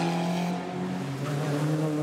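A race car engine drones through a chicane at a racing event, nearly clipping a tire barrier: a steady, loud tonal roar with strong harmonics that dips slightly in pitch partway through, then holds.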